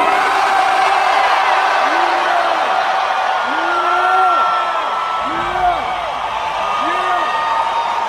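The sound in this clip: A huge stadium concert crowd at Optus Stadium in Perth, Australia, roars and cheers in a sustained, loud wall of noise, with scattered whoops and chant-like shouts rising and falling within the din.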